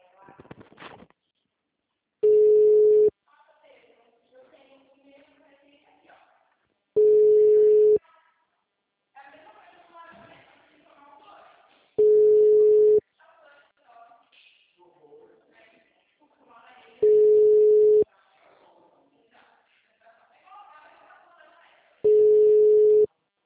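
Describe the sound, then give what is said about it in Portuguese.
Ringing tone of a telephone call being placed: five short, steady mid-pitched beeps sound at even intervals of about five seconds, with people talking in the quieter gaps between them. “Ó, vou fazer a ligação. Vou fazer a ligação.”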